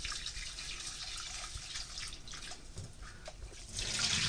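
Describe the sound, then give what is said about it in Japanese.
Rice being gently washed by hand in water, a soft, steady slosh and trickle of liquid with no talk, swelling a little louder in the final moments. “そしたら 2、3 回お米を優しく洗うように研いでいきます。”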